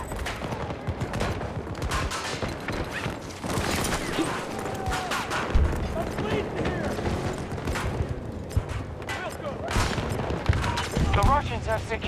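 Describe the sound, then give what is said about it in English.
Gunfire in an objective-based multiplayer video game shooter, dense bursts of automatic fire and many single shots cracking continuously at a fairly even loudness. “Alright, I'm up front shooting people, but I'll come back.”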